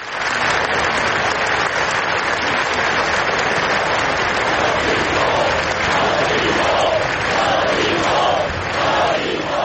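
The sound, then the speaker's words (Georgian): Crowd applause and loud shouting break a minute of silence at a memorial gathering in Barcelona for victims of an attack on Las Ramblas. Dense, steady clapping fills the whole clip, with rising chanted shouts joining in the second half. “წუთიერ დუმილს მოხვა შეკრებილების ტაში და შეძახილები არმეშინ.”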